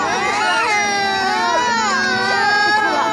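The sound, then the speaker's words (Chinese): Hungry young children, some under two, cry together in a sustained chorus of loud, overlapping, wavering wails that runs without a break. “你听到了吗？孩子们都饿哭了”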